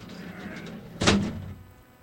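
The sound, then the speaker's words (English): A big heavy door slams shut with one loud, deep thud halfway through, followed by a short low rumble that fades into steady background noise. “All right, let's get the big ass door. Big ass door. Big ass door. Here. Yeah, there it is.”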